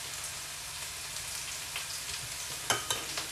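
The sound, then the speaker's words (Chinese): A dish being stirred as starch is added to thicken it gives a faint, continuous sizzle of frying, with a few soft scraping strokes near the end. “然后淀粉给它搅拌一下，让它浓稠一点。”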